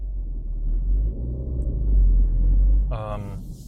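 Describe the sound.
A car driving on the road on the way to a fuel stop, heard as a steady, deep engine and road rumble that swells slightly midway. A brief voiced sound cuts in near the end.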